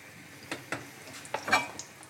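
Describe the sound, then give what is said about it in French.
Butter sizzles in a frying pan over medium heat with a soft, faint hiss, broken by a few sharp clicks and scrapes of a utensil spreading it against the pan. “Voilà, le beurre commence à chanter. On l'étale bien dans toute la poêle.”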